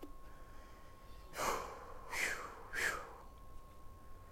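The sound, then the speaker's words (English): A person breathes heavily, gasping for breath in three loud, breathy rasps about a second apart. A faint steady tone hums beneath throughout. “Just trying to breathe here, man. Just trying to breathe.”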